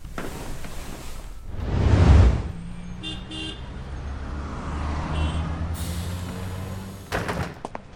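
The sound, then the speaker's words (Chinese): A city bus with air brakes gives a loud burst of hissing air early on, then a steady low engine rumble with a few brief tonal beeps, and a short clatter near the end. “欢迎乘坐开往残酷成人世界的公交，终点站童颜无忌大学，车辆运行中，请站稳扶好。”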